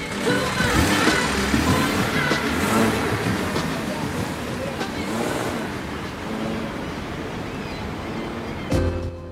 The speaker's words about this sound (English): She starts the car and accidentally turns the windscreen wipers on. She gets the car in gear and drives away.